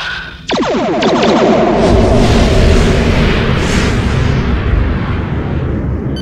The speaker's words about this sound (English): Firing photon torpedoes.